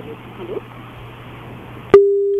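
A telephone call drops off: a hissy, crackling open line ends in a sharp click, followed by a steady, continuous mid-pitched tone of the disconnected line.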